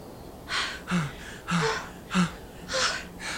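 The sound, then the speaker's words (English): Heavy panting and gasping from someone catching their breath after running: a series of sharp, breathy gasps spaced about half a second apart, moderately loud against a quiet background, with no talk. “Far enough away, the two stopped to catch their breath.”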